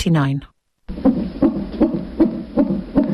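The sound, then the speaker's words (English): A fetal heartbeat in the womb, heard through a monitor: fast, steady whooshing pulses that repeat evenly for several beats. A short voice comes before them, followed by a brief silence. “What you're hearing is a baby's heartbeat in the womb, an incredible sound.”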